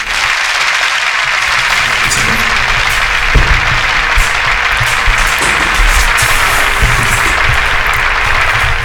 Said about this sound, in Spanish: Así que damos nuevamente un aplauso para seguir con Cultura Chopística.